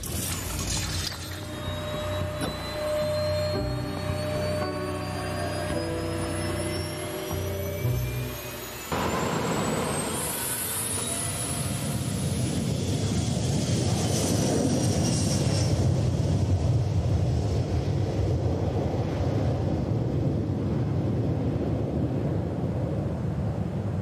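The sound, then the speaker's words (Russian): A jet aircraft takes off, its high engine whine climbing steadily in pitch before a loud, broad roar builds and holds to the end. “Мы взлетаем! Быстрее на борт!”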